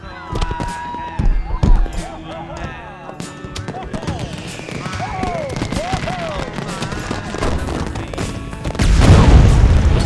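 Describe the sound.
Fireworks go off in a park, a whole bunch lit at once, giving many sharp bangs and pops mixed with whistling streaks that build to a dense, loud rumble near the end, with voices talking over them.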